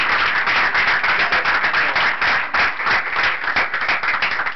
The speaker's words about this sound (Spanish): Denle un aplauso al Espíritu Santo esta mañana.